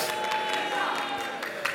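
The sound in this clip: A crowd boos its disapproval of a three-point delay-of-game penalty in a game, a dense, steady wash of crowd noise that holds for the whole moment.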